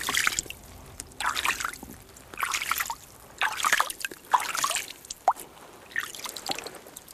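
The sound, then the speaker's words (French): Faint trickling and dripping water in an unfrozen mountain water reservoir in the winter Pyrenees. It comes in recurring soft bursts with scattered sharper drips in between, and no voices. “Et ici, un réservoir d'eau. Étonnamment, il n'est pas gelé.”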